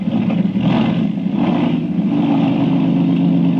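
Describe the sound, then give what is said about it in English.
Racing plane engine roaring at the start of an air race, a loud, continuous droning growl with slight surges in intensity and no voices over it. “Here comes the Grand Mystery Racer number 7, flown by Jim Lane.”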